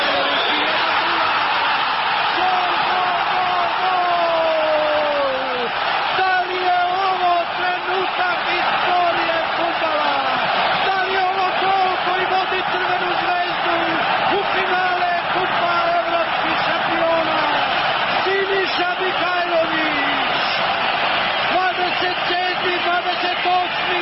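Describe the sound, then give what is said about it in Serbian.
Red Star football fans, some 80,000 of them, singing in a stadium during a match: a dense, unbroken roar of crowd chanting runs steadily beneath a commentator's voice. “80.000 navijača Zvezde ne prestaje sa pesmom.”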